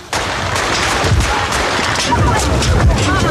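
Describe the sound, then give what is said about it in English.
Gunshots fired at President Reagan outside the Washington Hilton in the 1981 assassination attempt, a few sharp reports lost in a dense, loud, steady clamor of crowd noise with voices throughout. “John Hinckley Jr. of Colorado fired 6 shots toward the president. And shots were fired apparently at President Reagan as he was coming out of the Washington Hilton”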